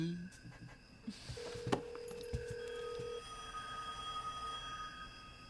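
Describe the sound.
A telephone sounds with one steady electronic tone lasting under two seconds, set against continuous background noise and scattered soft knocks.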